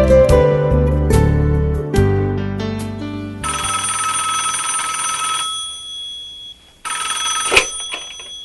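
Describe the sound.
A telephone ringing for an incoming call from a friend, heard as a loud, tonal ringtone of shifting repeated notes that changes partway through and ends in a short final burst, with no voices.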